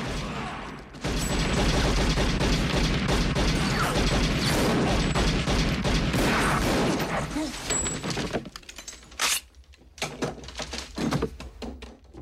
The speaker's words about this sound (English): A man springs out with a machine gun. kills him and three others.